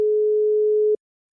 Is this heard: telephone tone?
yes